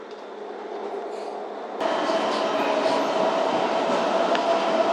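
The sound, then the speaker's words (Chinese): A subway train arrives at a station with a steady, dense rumble of wheels and carriages under a sustained whining tone. The noise steps up abruptly early on and then holds loud and even. “良乡大学城北站到了。”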